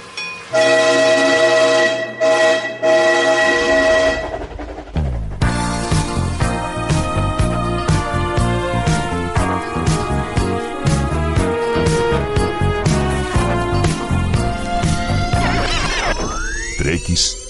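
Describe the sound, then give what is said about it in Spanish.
A train rolls along the rails with a loud, continuous rumbling clatter, preceded by a few seconds of sustained tones and ending with a rising whistle-like sweep. “un tren.”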